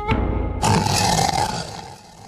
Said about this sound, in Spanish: De repente, se oyó un terrible rugido.